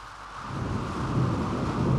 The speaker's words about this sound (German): Die Nacht war dunkel, mit Donner, Blitzen und Regen.